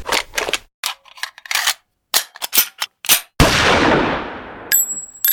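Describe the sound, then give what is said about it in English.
A single loud gunshot bursts out with a long fading tail, preceded by several sharp clattering hits and followed by a brief high-pitched ringing tone. “I'll just shoot him.”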